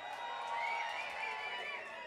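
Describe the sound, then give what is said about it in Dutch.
A festival crowd cheers and applauds for a DJ at an outdoor metal event, a dense, sustained roar of voices and clapping with no single sound standing out. “Hey, jullie zijn het veel en jullie kunnen veel harder daveren. Geef het daverend applaus voor DJ Bags.”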